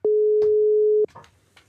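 A telephone ringing tone as a call is placed: a single steady mid-pitched tone lasting about a second, then a few faint brief noises.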